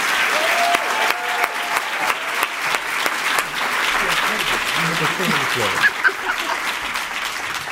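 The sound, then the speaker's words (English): An audience applauds to welcome a speaker to a chapel service, with dense, sustained clapping that stays loud and steady throughout. “Would you please join me in welcoming Ms. Jada Edwards to chapel today?”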